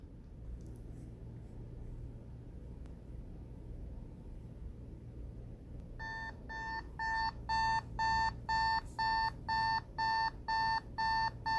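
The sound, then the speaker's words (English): An alarm clock rings with many rapid, evenly spaced high electronic beeps. They start about halfway through, after a stretch of low steady hum, and grow slightly louder as they continue. “Well, that's my alarm clock.”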